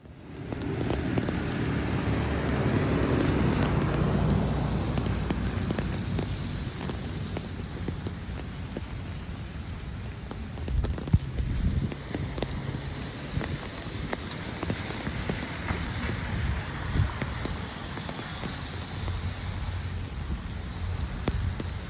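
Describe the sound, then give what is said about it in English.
Raindrops patter on an umbrella in a steady, dense hiss of tiny impacts, with scattered louder taps, continuing evenly for over twenty seconds without voices. “For the next 2 minutes, here's the sound of raindrops hitting my umbrella.”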